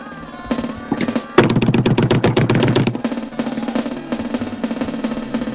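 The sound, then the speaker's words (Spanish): A fast, loud drum roll bursts out for about a second and a half amid music, with rapid, tightly packed hits before the music carries on alone. “redoble tambores”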